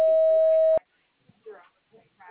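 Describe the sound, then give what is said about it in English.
An answering machine beep, a single steady tone lasting under a second, sounds before recording begins, followed by a voice starting to speak. “Please record your message after the beep.”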